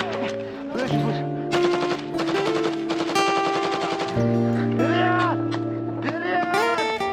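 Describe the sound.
Rapid machine-gun fire in a battle scene, a dense rattling stream of shots running continuously beneath sustained musical tones, with shouting voices mixed in.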